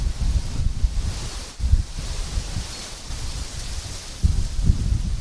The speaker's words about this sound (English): It just looks like a really bad storm. I got some giant, trees in my front yard, and they're blowing in the wind, but they're not super crazy as of yet.